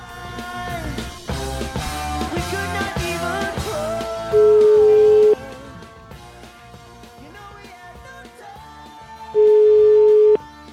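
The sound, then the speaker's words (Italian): Steady telephone line tones sound while a call is being placed, two long, even beeps separated by a pause and heard over continuous background music, with no voices. “Ho qui il numero di telefono, facciamo una telefonatina, che dici?”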